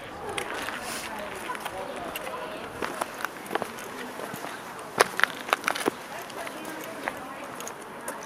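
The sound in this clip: Footsteps crossing an inner courtyard into an old merchant's house, a series of sharp, irregular steps and knocks over a low, steady background hum.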